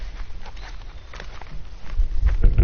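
Footsteps of people walking along a woodland trail, an irregular run of soft crunching steps that grows louder toward the end.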